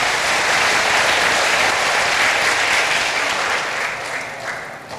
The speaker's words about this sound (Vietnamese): Cho một tràng vỗ tay thật là lớn để tán dương